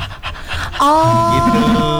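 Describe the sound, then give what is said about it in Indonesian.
Panting breaths used as a diaphragm-opening breathing exercise: breathy, airy huffs that give way to a steady, sustained voiced exhale. “kalau aku satu lagi tambahan, kalau misalnya nih pernapasan aku diafragmanya masih belum kuat gitu kan, nah aku bisa ambil cara kayak kita ngos-ngosan kayak.”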